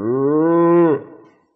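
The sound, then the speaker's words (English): A single long, loud moo from a Texas steer, a deep, steady-pitched bellow held for about a second before breaking off and trailing away to silence. “hey, what's that? Sound like some Texas steers around here. And some sheep.”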